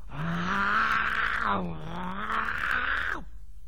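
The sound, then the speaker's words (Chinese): A man's voice imitates a tiger's roar, performed during a traditional storytelling of a tiger pinned down and beaten by a man's fists. Two long, loud, growling roars follow each other with a brief dip between them, and no other sound accompanies them. “老虎一劲的吼叫”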